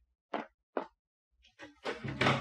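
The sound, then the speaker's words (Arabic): A door in an old Arabic radio drama: two sharp, knock-like thumps, a short pause, then a louder clattering burst as the door is opened. “طب ما تروح تفتح الباب، ولا هتسيب الراجل ملطوع بره كده؟”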